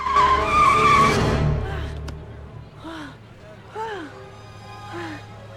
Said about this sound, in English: A bird drops into the passenger seat and Stuart slams on the brakes.